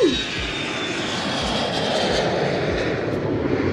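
An airplane taking off: a loud, steady, broad engine roar that holds at an even level throughout, with no voices.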